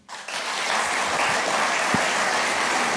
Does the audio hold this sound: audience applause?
yes

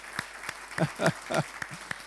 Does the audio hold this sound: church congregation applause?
yes

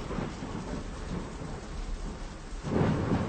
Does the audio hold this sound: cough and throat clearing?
no

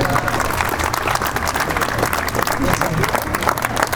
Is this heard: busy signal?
no

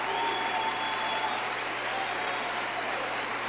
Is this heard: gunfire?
no

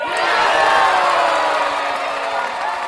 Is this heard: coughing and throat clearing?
no

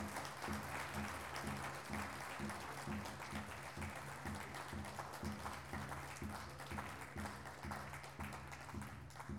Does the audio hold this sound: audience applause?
yes

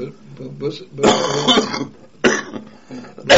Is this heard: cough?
yes

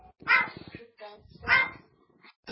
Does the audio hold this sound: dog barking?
yes

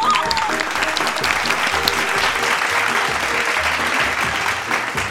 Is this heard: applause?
yes

